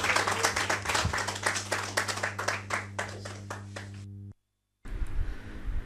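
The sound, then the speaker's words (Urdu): Audience applause at a poetry recital marking 90 years of All India Radio: brisk, fairly loud clapping over a low steady hum, which cuts off abruptly into a brief silence before other sound resumes. “آپ حضرات ان تمام کی جانب اور تمام کے استقبال کے لیے زوردار تالیوں سے استقبال کریں۔”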